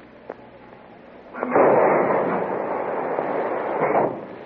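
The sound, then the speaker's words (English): A torpedo fired from a submarine: a faint click, then a loud, broad rushing whoosh that surges in, holds steadily and tapers off. “Mark torpedo, fire one.”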